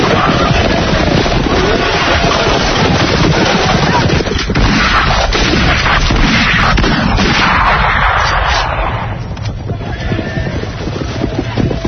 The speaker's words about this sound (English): That was a great shot. Not so great. I aim for his head.